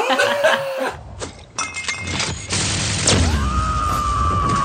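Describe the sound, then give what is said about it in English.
A companion's special move in a video game that tosses an empty bottle, with a loud glassy crash and breaking clatter among tonal game effects, ending on a sustained ringing tone. “every time you activate this, there's the sound of her tossing an empty bottle”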